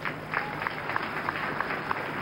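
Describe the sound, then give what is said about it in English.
Audience applause at a church service, where a man receives a 2016 off-road vehicle as a gift. The clapping is a steady, fairly faint wash with a loose pulse of claps running through it. “All right, let's clap for him.”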